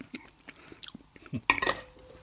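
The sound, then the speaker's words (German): Chewing of oil-marinated peppercorns taken with wine: faint crunching bites and soft mouth sounds, with a louder crunchy burst toward the end. “Ich esse gerade nur Pfefferkörner mit diesem Wein.”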